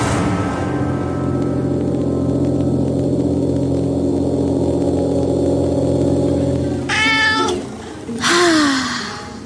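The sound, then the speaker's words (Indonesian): A cat meows by the roadside near the end, two short rising-and-falling calls that cut through a long, steady low rumble of a car being driven. “kucing sialan. Ngapain sih lu diem di pinggir jalan kayak gini?”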